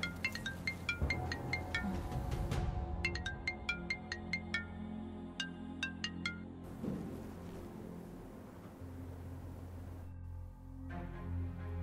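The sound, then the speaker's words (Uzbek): A mobile phone ringing with a melodic ringtone: a long run of short, bright, high-pitched notes in a repeating pattern. The ringing breaks off and then starts again near the end, over a steady low hum. “boyadan beri jing'illaydi telefoningiz.”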